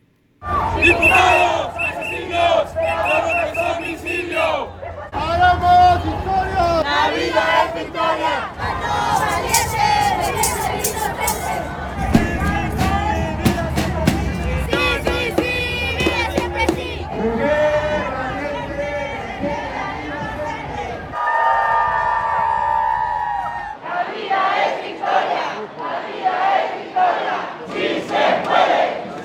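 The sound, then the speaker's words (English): Crowd chanting and shouting at the March for Life in Mexico City, an anti-abortion and anti-assisted-suicide march: a loud, sustained mass of voices that shifts through several surging sections over about half a minute. “Thousands of people in Mexico recently attended the country's March Against Abortion and Assisted Suicide. One church leader says the Mexico March for Life emphasizes protecting the most vulnerable. Here are some of the sights and sounds from last weekend in Mexico City.”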